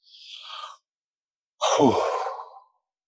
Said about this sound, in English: I'm gonna take a deep breath before I answer that.